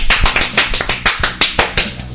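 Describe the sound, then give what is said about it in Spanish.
Rhythmic applause for women performers who pulled off a stunt on top of fish tanks: steady, evenly spaced, sharp claps, fairly loud, with no talking. “¡Aplauso para ellas!”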